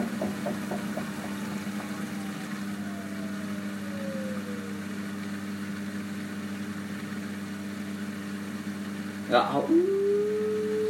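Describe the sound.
A washing machine spin cycle drones with a steady low motor hum and a slight whine, holding an even level throughout.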